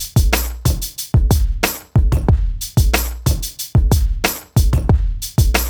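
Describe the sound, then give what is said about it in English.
Drum loop built from only seven samples, including an extra hi-hat, playing a steady repeating beat of deep punchy kicks, crisp snare hits and bright hi-hat ticks, loud and alone. “I only have one, two, three, four, five, six, seven sounds used in my drum loop. And it sounds like this.”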